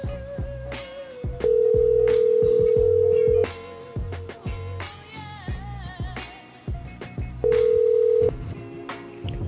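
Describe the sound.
Ringback tone of an unanswered telephone call: two long, steady, mid-pitched tones separated by a silent gap of about four seconds, the second one cut short, with other busy sound running underneath.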